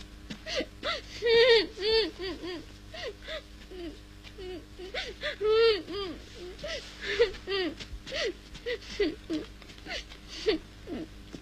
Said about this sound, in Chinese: 为什么哭啊？